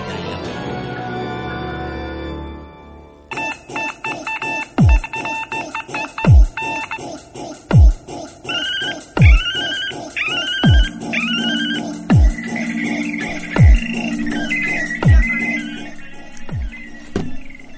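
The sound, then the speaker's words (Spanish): Telephone keypad tones and ringing beeps play inside an electronic jingle. Repeated deep thumping beats keep a rhythm under rapid dialing beeps and warbling rings, after a short dense burst of mixed sound at the start. “Arden los teléfonos de Polémica en el Bardo”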